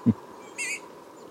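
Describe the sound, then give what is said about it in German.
Trumpeter finch giving its trumpet-like call: one short, faint, nasal and buzzy high note, preceded by a brief low thump. “ein Teil davon, wahrscheinlich Nordrussland, hat sich diesen Trompeterruf angeeignet und der klingt wirklich süß. Fast wie unser Trompetergimpel.”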